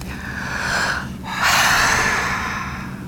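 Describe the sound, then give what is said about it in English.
A relaxation breathing exercise: a short breath in, then a long, loud, airy exhale lasting well over a second, steady and with no other sound. “It's exhale.”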